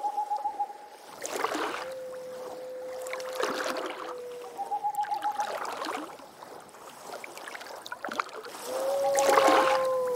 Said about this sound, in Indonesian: Tinggal menyeberang dengan perahu kecil saja. Hutannya cukup dekat. Untung saja hari ini airnya tenang.